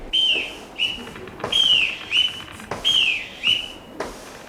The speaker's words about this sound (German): Deckscheuer nach der Pfeife des Bootsmannes.